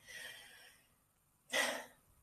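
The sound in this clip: A speaker pauses to take a breath: a soft, breathy sound fades out, then after a short silence comes one louder, sharp breath of rushing air.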